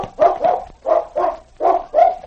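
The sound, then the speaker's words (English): A dog barks after sniffing out a scent near the back door of a cafe: six loud, hoarse, mid-pitched barks in quick pairs, with no other sounds. “sniffing the ground near the back door of the cafe, he stopped and barked to indicate he had found the scent.”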